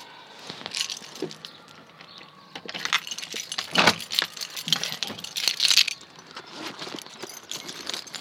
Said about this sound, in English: Now, excuse me while I rummage for my keys.